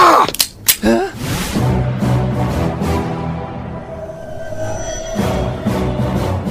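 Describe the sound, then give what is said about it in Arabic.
Film gunfire opens with a few sharp, loud cracks in quick succession, then gives way to a sustained droning tone. “إنهم يطلقون النار تجاهي. مهما يكن، سأتبادل معهم إطلاق النار لأمكن ميمون من الهرب.”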